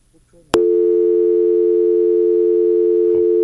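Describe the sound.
A telephone line tone follows a dropped call. After faint low sounds, a sharp click starts a loud, steady, single-pitched tone that holds unbroken to the end.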